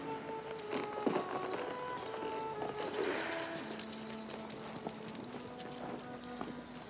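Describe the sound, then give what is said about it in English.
Horse hooves clip-clop steadily as a rider rides away, a continuous stream of moderate hoofbeats running through the whole passage beneath sustained tonal sounds. “Dylan walks to his horse.”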